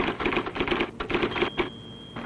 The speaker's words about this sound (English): The IBM Selectric, a typewriter so different, only the alphabet remains the same.